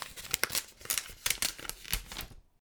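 An envelope is opened with a run of crisp paper tears and rustles, many sharp bursts in quick succession that stop abruptly at the end.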